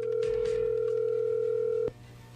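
A telephone line tone sounds as a call is dialed and rings through: one steady, mid-pitched tone holds for almost two seconds, then cuts off abruptly, leaving a quiet line hum.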